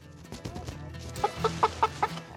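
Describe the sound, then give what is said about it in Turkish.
Chickens cluck while being caught to move them into a coop: five sharp, evenly spaced clucks rise over a low, rustling background bustle. “Tavukları kümese taşımaya hazırız.”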